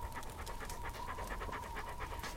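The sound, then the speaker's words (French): A female dog pants quietly and continuously, a quick, even rhythm of short breathy huffs with no voices over it. “Tu me reconnais, hein? La brave chienne. Superbe bête.”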